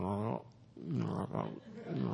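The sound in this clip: A voice imitates a lion with a few low, throaty growls and roar-like sounds, broken by brief pauses.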